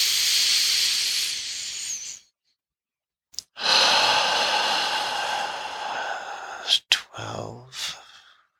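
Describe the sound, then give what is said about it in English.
Slow breaths drawn in through the nose during a lower-belly breathing exercise: a long, airy hiss, a pause, then another long inhale that fades into a few shorter, sharper puffs of air. “Inhaling in your nose.”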